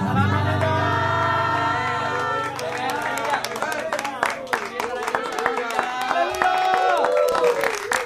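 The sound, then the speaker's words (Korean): Audience applause breaks out as sustained musical tones fade, and scattered claps and crowd noise build into a busy, uneven patter that runs to the end. “박수 막 나한테 치는 것 같아서 기분은 좋네요.”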